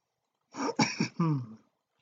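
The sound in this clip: A quiet throat clearing, a short rasping voiced burst of a few quick pulses, heard alone with no talk.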